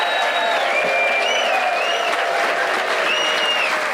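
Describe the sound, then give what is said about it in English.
Applause comes from the audience at the Hay Literary Festival in Hay-on-Wye, Wales, a steady and fairly loud patter of many hands that continues without pause. “You can hear the very hardiest festival goers are with us already for the early start.”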